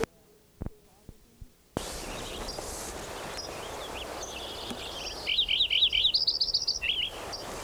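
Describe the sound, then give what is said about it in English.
Lincoln's sparrow song: one bubbly, warbling high-pitched phrase of about a second and a half over steady background hiss. It follows three sharp clicks near the start. “Lincoln Sparrow number 5 again.”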